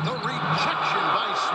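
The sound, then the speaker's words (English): Gameplay sound from the basketball video game NBA 2K16 on Xbox: a bouncing ball is heard under continuous talking voices. “This is the sound of Philando playing NBA 2K16.”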